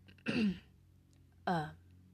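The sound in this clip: A woman clears her throat twice, two short, rough, throaty bursts about a second apart, with quiet in between.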